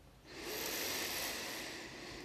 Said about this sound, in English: Let's end this practice with 3 deep breaths in together. Inhale.